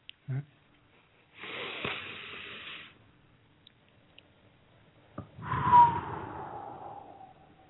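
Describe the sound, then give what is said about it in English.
A deep breath is drawn in and let out slowly: a long airy hiss, then a louder, fuller breath with a low rumble that fades gradually. There is no talk. “I need you to take a nice deep breath.”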